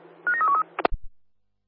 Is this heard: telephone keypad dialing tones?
yes